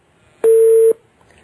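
A telephone line tone after a dropped call sounds as a single steady, mid-pitched beep lasting about half a second, clean against near silence.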